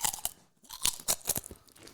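Someone chews crunchy food: loud, sharp crunching bites in several bursts separated by short pauses, each crunch crisp and bright, with no talk.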